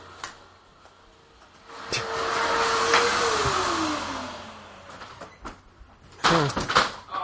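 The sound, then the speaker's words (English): A vacuum cleaner runs with a loud, rushing whine that swells and then fades as the motor winds down in falling pitch. Several knocks and clunks follow. “hold on a second, let me get my wife to stop the vacuum cleaner.”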